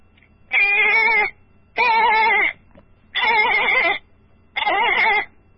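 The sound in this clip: A goat bleats four times, each call a wavering, nasal cry under a second long, separated by short pauses with no other sounds.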